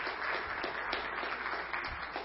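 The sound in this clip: Steady, dense applause from an audience welcoming a speaker to the front, sustained at an even level throughout without any break.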